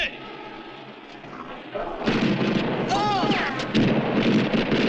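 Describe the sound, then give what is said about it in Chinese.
Police open fire with guns: heavy, booming shots cut in suddenly partway through after a quieter stretch, and agitated voices follow over the noise. “别开枪！别开枪！他妈的，谁叫你们开枪的？他中弹了，过去看看。”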